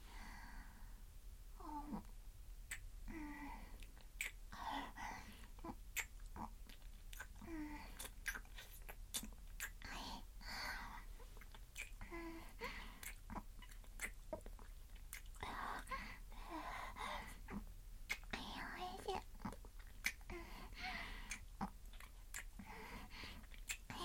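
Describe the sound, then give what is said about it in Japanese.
Wet licking and smacking mouth sounds before eating: many soft, irregular clicks and slurps run steadily through the whole stretch at low volume, with no talking. “中に入れる前にたっぷり舐めちゃうね。”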